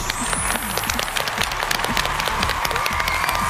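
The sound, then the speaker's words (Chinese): Audience applause with some cheering welcoming the Guangzhou Xinghu Choir onto a stage program, a lively, continuous patter of many hands at moderate level. “让我们掌声欢迎广州星湖合唱团，欢迎各位。”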